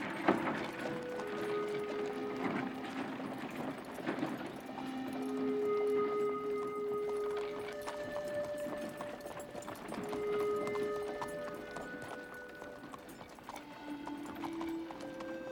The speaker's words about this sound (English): Collie watches Matt climb onto the seat of the wagon, and it begins its journey. Matt Dillon rolls slowly out of Golden.